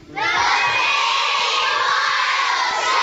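A crowd of children from the Bristol area cheers loudly at the opening of a children's wildlife show, a sustained, shrill mass of shouts and whoops that rises sharply and stays at full volume.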